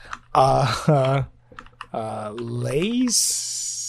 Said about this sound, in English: I'm going to type it out. I'm going to type it out phonetically.